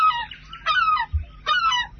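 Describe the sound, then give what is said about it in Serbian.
Herring gull calling in three harsh, nasal, honking cries in quick succession, each a bright burst of rising and falling tones, with a soft low thump between the second and third. “ja sam Larus Argentatus. Ma nemovi! Srebrnasti galeb!”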